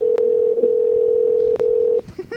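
Ringback tone of an outgoing international phone call: a single steady, mid-pitched electronic tone holds evenly for about two seconds, then cuts off, leaving near-quiet.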